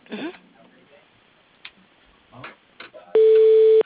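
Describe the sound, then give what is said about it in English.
A telephone line tone sounds as a call is put through to an office voicemail: a few faint clicks, then a steady, loud, buzzing tone holds alone through the final second. “I'll do the voicemail. Just a moment. I'll put you through.”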